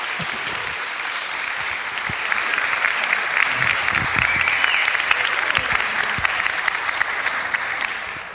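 A church audience applauds to welcome a pastor: steady, dense clapping runs the whole way through and grows a little fuller after the first couple of seconds.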